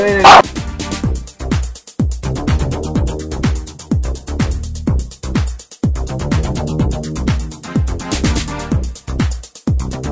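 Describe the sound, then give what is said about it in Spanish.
A dog barks loudly at other dogs in a long, rapid run of sharp barks and higher yips, starting with one very loud burst, then steady, uneven volleys that keep going throughout. “Disculpen, ladró con mucha fuerza. Vio a sus amiguitos, ¿verdad, Foxy?”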